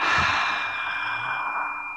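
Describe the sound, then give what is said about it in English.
A deep breath heard as one long, soft, airy whoosh that is strongest at the start and fades gradually over about two seconds, with no voices. “let's take a deep breath, everybody. Call in the love and blessings that are coming to all of us and breathe them out to one another.”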